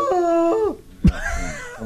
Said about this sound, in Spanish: Usted tiene que ir a decirle al lobo marino esto.